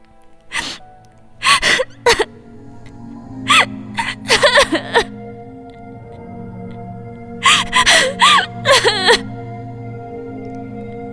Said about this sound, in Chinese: 向南风勉为其难地拥抱着这个初次见面的小妹妹，任凭她在自己的怀中嚎啕大哭，泪如雨崩。